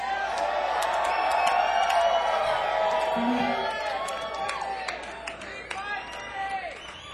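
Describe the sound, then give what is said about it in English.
Crowd cheering and making noise at a benefit party for a worthy cause, a dense, sustained roar of voices with scattered shouts. It stays loud for the first few seconds, then eases slightly as some talking carries through. “Come on, y'all, make some noise.”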